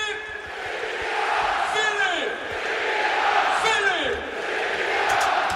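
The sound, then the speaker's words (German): SC Paderborn football fans roar after a goal in the stadium. A dense crowd cheer swells and holds steady, with shouted calls rising out of it. “1500 weiß gekleidete Gästefans müssen den Torjubel des SC Paderborn ertragen. Und den hören wir uns da jetzt mal an.”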